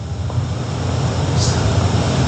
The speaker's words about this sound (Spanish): El avión supuestamente en Guadalajara.